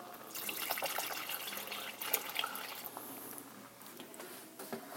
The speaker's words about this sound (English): That's one of the reasons I'm using a whisk. But also it's why I'm adding milk the way I am. Here comes some more milk.